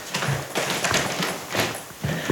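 Footsteps climb stairs up to an attic that is being converted into a room, a series of dull, uneven thuds and creaks with a broad, woody tone, each step standing out clearly against a steady low background.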